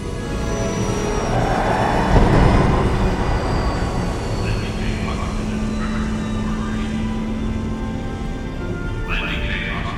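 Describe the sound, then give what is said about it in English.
A shuttlecraft landing in a starship's shuttle bay gives a continuous, dense engine roar and rumble that swells briefly early on, then holds steady, with thin high whines running through it. “the Enterprise shuttle bay. Scotty is watching their approach from a monitor. Ready for landing maneuver.”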